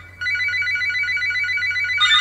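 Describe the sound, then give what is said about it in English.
A phone ringing: after a brief quiet moment, a continuous warbling electronic ring tone sounds steadily, with a brighter, louder surge near the end. “Sorry, that's my phone again.”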